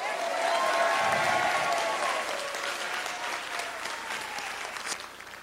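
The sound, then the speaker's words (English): Crowd applause and cheering for departing colleague Eric Bridges: a sustained wash of clapping with voices mixed in, strongest early and gradually fading toward the end. “let's give Eric Bridges a big hip, hip hooray.”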